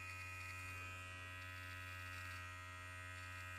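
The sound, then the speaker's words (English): An electric shaver buzzes steadily as it shaves body hair, a constant faint harmonic drone with a low hum underneath and no breaks or talking. “And I use it to shave all over my body. You hear it shaving?”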